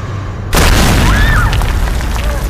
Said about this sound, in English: I broke through the wall and saw Kanyazev